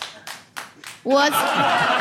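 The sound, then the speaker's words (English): A handful of scattered claps from a comedy club audience land in an uneven rhythm, then give way to chuckles and a voice talking. “Applaud if you know. Applaud if you know a person.”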